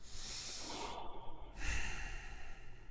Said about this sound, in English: Breathe deeply.